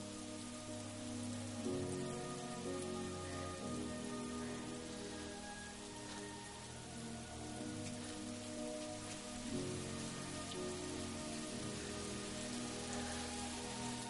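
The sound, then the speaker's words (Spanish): Rain falls steadily on surfaces, a continuous soft patter and hiss that holds an even, moderate level throughout with no voices. “Sale y se pone bajo la lluvia dejando que moje su rostro.”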